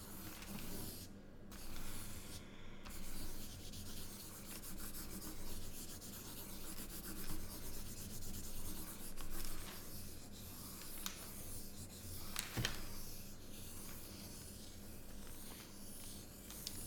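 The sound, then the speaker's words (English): A pen scratches over paper while drawing a tight circle. The rubbing, hissing strokes are faint, continuous and uneven, with a few brief pauses. “And I'm drawing a circle. Tight.”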